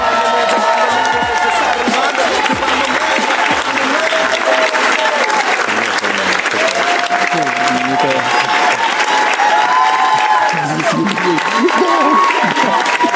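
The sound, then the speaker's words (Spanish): Sustained audience applause with crowd noise, loud and steady for the whole stretch, dense clapping blended with crowd voices and no break. “Los aplausos que nos tienen esta gente.”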